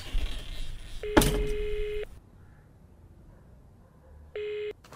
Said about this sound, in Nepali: हस् दिदी म फोन गरिहाल्छु है